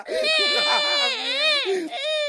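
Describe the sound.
A young child cries, a continuous wailing sob with a wavering, rising and falling pitch that breaks briefly near the end and then resumes, loud and alone.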